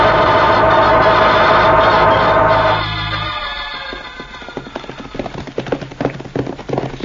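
Galloping horse hooves: many quick, irregular thuds that follow a loud, steady wash of sound filling the first few seconds.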